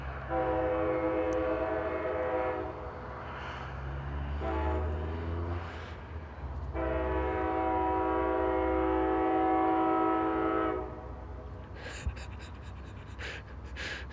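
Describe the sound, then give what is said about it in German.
A deep train horn sounds two long, loud, sustained blasts over a low rumble, with a brief pause between them, then fades to rumble and a few sharp clicks; trains here must honk because the crossings lack proper barriers. “So, die haben hier halt keine so richtigen Bahnübergänge. Die müssen halt auf sich aufmerksam machen, damit die Leute da nicht reinknallen. Und dann hupen die halt.”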